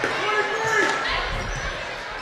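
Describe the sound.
Basketball dribbled on a court during a women's game, a few low, soft bounce thuds heard beneath a commentator's continuous play-by-play talk.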